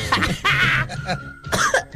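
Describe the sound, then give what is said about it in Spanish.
A few short, raspy coughs from someone with a slight cough, coming in rough bursts separated by brief gaps and mixed with some voiced, throaty sounds. “si no estoy con tosecita”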